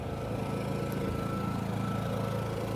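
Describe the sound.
A generator hums steadily on a film set where a catering crew serves lunch at beer benches, a continuous even engine drone with no break or voices.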